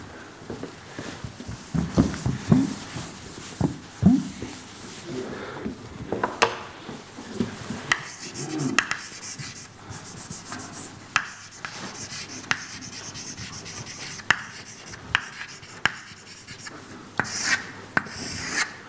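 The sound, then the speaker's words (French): Someone writes on a board with many faint, irregular scraping and rubbing strokes, punctuated by sharper taps, over about nineteen seconds. No speech. “Je vais l'écrire là-haut.”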